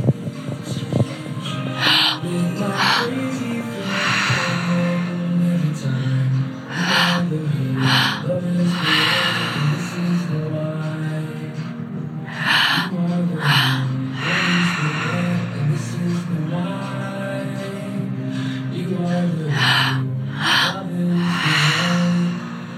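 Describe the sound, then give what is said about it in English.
Heavy, rhythmic breathing from a live breathwork and meditation session: a steady run of many forceful breaths, loud and repeated throughout, over continuous soft music, with no talking. “You're allowing your expectations to drop, your to-do lists to fall away, and we're just breathing.”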